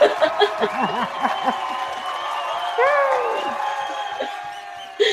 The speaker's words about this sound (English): I want to give a round of applause and a cheer to my co-host in Reality Foolishness, Sharita. Here she goes. Yay, thank you. Thank you. Thank you. That's my sound effect.